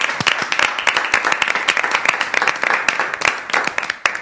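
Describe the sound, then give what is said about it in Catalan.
Lively clapping for a radio show's regular presenters, with distinct sharp hand claps from a modest group standing out individually in a quick, uneven patter that stays loud throughout. “rebem un fort aplaudiment als nostres locutors habituals”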